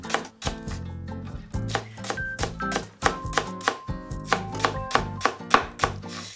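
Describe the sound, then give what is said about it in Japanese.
A knife finely chops green onion on a cutting board: many quick, sharp, evenly spaced taps in a steady rhythm, with no voices. “ネギのみじん切りができました”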